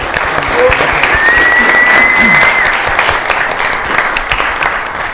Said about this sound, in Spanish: Un aplauso para Matías